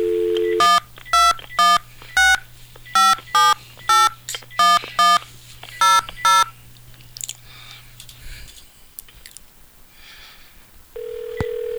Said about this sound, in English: Okay, here's some dialing.